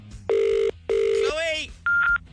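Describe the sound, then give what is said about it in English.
Telephone keypad tones as a number is dialled: three short, steady beeps. The first two are at the same pitch and the last is higher, with a brief warbling electronic sound between the second and third. “We're going to pick a number at random, so let's give Chloe a ring.”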